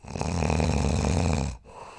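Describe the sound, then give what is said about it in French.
One long, loud, rasping snore from a sleeping person stops abruptly, followed by quieter breathing. “Une personne atteinte d'apnée du sommeil a tendance à ronfler.”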